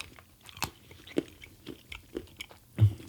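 Crunchy bites into vegan chocolate followed by chewing, several sharp snapping cracks and irregular moist mouth noises at moderate volume, with one stronger crunch near the end and no speech.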